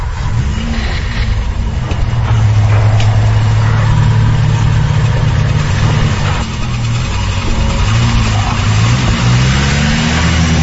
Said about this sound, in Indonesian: aku segera masuk ke dalam mobil dan aku langsung menancapkan gas pulang ke rumah